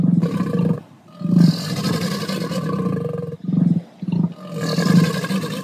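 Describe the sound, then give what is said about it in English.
Alligator and emu calls blended together into several deep, rumbling roars in loud bursts separated by short pauses, with no other sounds. “In case you've never heard an alligator and really would want to get close enough to converse, or an emu, here's what they'd sound like all mushed together.”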